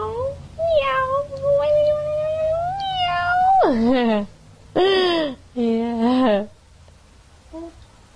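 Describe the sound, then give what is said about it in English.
A child imitates a cat with several drawn-out, high meows, some bending downward in pitch, separated by brief pauses and ending with a faint short sound. “Meow. Meow. Meow. Meow. Meow. Kitty cat. Meow.”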